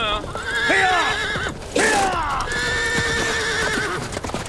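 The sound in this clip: Horses are ridden away, giving loud, high whinnies with wavering pitch over a bed of clip-clopping hooves and rustling movement.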